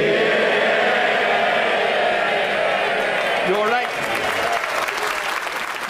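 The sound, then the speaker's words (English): MPs give a standing ovation to the Ukrainian ambassador in the House of Commons: dense, sustained applause from a large crowd, steady and loud throughout, easing slightly in level near the end. “MPs gave a standing ovation to the Ukrainian ambassador to the UK in the House of Commons this afternoon”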